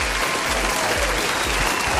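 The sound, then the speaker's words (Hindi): A crowd applauds a game contestant with a thick, continuous patter of clapping that stays loud and steady throughout. “चले भाई ये भाई भाई को तालियां बजा दी जाए. तालियां तालियां.”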